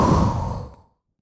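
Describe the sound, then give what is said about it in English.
A single fast, deep exhale during a breathing exercise, a loud breathy rush of air that tapers off within about a second into silence. “take a deep breath with me, just with me, real fast. That was a bad breath. Exhale real fast.”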